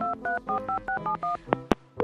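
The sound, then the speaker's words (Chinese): A telephone number dialed on a keypad: seven short touch-tone beeps in quick, regular succession, followed by a few brief clicks and tones. “我打电话催了，老是接不通，我再试一次啊。”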